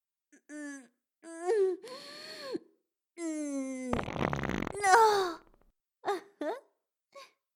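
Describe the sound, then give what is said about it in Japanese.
A series of strong farts in varied pitches: several short tonal squeaks and drawn-out buzzy blasts, one harsh raspy burst in the middle, then a few brief squeaky pops at the end, with silent gaps between them. “さあおかぎなさい。私の強烈なおならを懸命に吸引するのですよ。”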